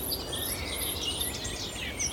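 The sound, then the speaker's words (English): A Cetti's warbler sings in lowland Somerset reed beds, its sharp notes among many high, quick chirps that run continuously over a steady background hiss. “Oh, and there's a Setty's warbler. I always call them Chetty's warbler, but it's a Setty's warbler, really sharp.”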